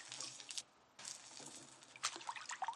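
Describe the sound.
Water is scooped by hand from a tub of water and splashed over the head and the hair above the forehead. A few wet splashing bursts are broken by a short quiet gap, with sharper drips and splashes toward the end.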